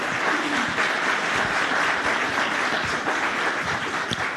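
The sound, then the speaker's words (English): Audience applause welcoming a mayor onto a stage at a civic leadership event: dense, steady clapping from many hands that holds at an even loudness for the whole stretch, with no voices over it. “So please give a big hand and join me in welcoming Mayor Lowry to the New Memphis stage.”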